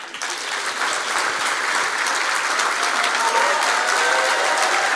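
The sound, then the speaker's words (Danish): Audience applause as a guest is introduced on a Danish studio talk show: dense, steady clapping that holds at an even loudness for the whole clip, with no talk over it. “Mine damer og herrer, giv en kæmpe stor hånd til en badanmelder.”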